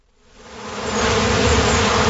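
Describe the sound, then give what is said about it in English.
Honeybees buzz around their hives in a downtown garden on a sunny spring day. The dense, loud swarm drone swells up over the first second, then holds as a steady, continuous hum. “checking on his honeybee hives in a downtown garden. There's nothing much more relaxing than sitting next to a beehive in the spring,”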